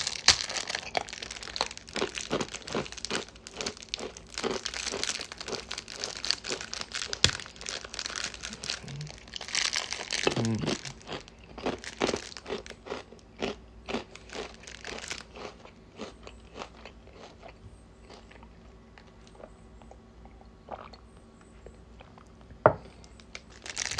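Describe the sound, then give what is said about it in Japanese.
Black pepper rice crackers (senbei) are unwrapped and eaten, with crinkling packaging and many sharp, crisp crunches and chewing sounds. The bites come thick and loud at first, then grow sparser and fainter, with a few isolated crunches near the end. “ちょっと黒胡椒せんべい食べます。”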